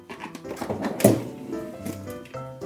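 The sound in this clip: A lower freezer drawer is pulled open, giving one solid thunk midway amid faint rattling and low background voices.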